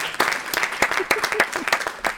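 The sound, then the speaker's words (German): Loud audience applause as a guest is welcomed, dense clapping with sharp individual claps standing out, steady across the whole stretch. “Immer gut mit Applaus anzufangen.”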